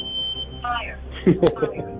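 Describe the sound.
A voice-announcing smoke alarm sounds a steady high beep, then a recorded synthetic voice speaks a short warning about fire.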